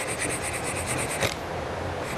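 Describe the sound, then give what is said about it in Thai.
Sandpaper rubs briefly against an edge being rounded over by hand, a fast series of raspy back-and-forth strokes that then stops, leaving a quieter hiss. “ขัดนิดเดียวมันไปแล้วนะเห็นไหมขัดนิดเดียวเองไปแล้วนะฮะ”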